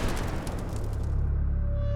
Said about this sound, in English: A sudden explosion sent a wave of fire over Ra's body.